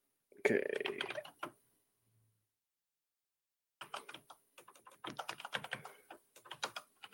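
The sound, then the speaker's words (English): Computer keyboard typing while entering an item name into a game's equipment manager: a burst of rapid clicky keystrokes, a silent pause of about two seconds, then a longer run of quick, irregular key taps. “as you type, I just typed hand under manage equipment”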